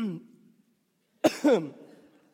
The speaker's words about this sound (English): excuse me, I'm choking.